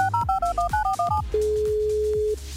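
Telephone keypad tones as a number is dialed for a prize call: a rapid run of short two-tone beeps, then a single steady tone held for about a second before cutting off.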